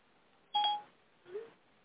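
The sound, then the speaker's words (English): Two touch-tone telephone beeps as a number with a 310 area code is keyed: a louder, longer tone, then a shorter, softer one, heard alone. “Calling on the 310 number, if you can, pick it up.”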